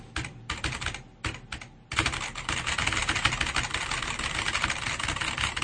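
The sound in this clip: Typing on a computer keyboard, first in a few short bursts of clicks with pauses, then a fast, unbroken run of keystrokes that carries on to the end.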